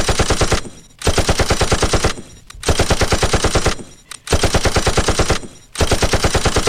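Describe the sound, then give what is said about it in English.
A gunshot sound effect plays as loud, rapid bursts of automatic fire. Each rattling volley is separated by a brief pause. “I'm going to lick off a shot for everybody who's been here before.”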